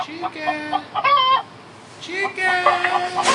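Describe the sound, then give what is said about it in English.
An agitated chicken that won't calm down clucks and squawks, giving a few loud, nasal calls separated by a short pause. “Chicken. No, chicken. He's not calming down.”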